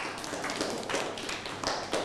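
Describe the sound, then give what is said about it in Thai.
Faint clapping from a classroom of students, a few soft, scattered hand claps, quiet and irregular. “นั่งลงครับปรบมือให้เพื่อน”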